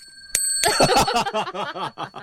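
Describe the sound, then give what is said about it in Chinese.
A small bell is struck once, giving a sharp ding with a lingering ring. A burst of laughter follows, continuing in rhythmic bursts while the ring fades beneath it. “要不要打个敲个铃铛呢？ 我来敲。”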